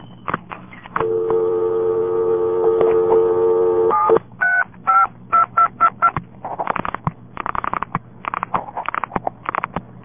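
A payphone handset is lifted and a number dialed on the Boulder City 293 exchange. A steady dial tone hums for about three seconds, then a quick run of many short touch-tone beeps follows.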